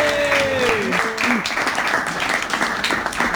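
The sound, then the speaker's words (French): Audience applause for a performer about to begin on stage: a steady wash of many hands clapping that keeps a fairly even level throughout. “Pour commencer sa chronique, est-ce qu'on peut faire du bruit pour Flora, s'il vous plaît, qui se lance à l'eau?”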